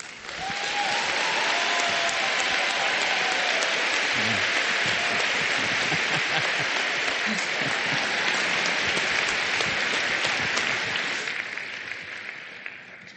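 Sustained applause from a large audience welcoming a guest preacher, a dense, even wash of clapping that holds steady for about eleven seconds before tapering off.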